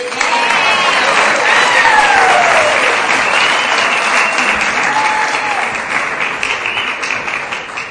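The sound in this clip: Loud applause greets a speaker stepping up at a meeting, many hands clapping in a dense, continuous roar that holds strong for most of its length before easing slightly toward the end.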